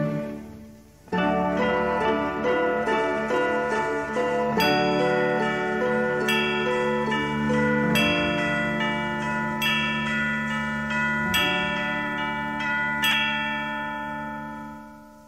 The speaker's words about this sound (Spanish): Son las 6. Las campanas dan din-don, te lo dicen en canción.